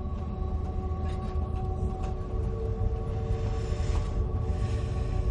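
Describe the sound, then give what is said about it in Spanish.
Train carriage rolling on rails at night, a continuous low rumbling drone with faint steady whining tones layered on top and no distinct rail clacks, holding an even level throughout. “Joe viaja en un vagón sentado junto a una ventanilla.”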